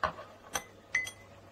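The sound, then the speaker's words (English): Light clinks against a glass as pills are stirred into a solution: a few brief, faint ticking taps, spaced apart over a quiet background. “We stir it up, get it all in solution and moving.”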